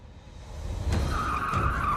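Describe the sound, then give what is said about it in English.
A sheriff's cruiser speeds around a corner. Its engine noise swells, and then a loud, high tire squeal rises and holds through the second half. “A sheriff's cruiser speeds around a corner.”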